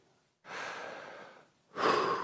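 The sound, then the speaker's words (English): Deep breathing, faint and unvoiced: one long breath lasting about a second, a short pause, then a second, louder breath that is cut off at the end. “I want you to take five deep breaths with me. Ready?”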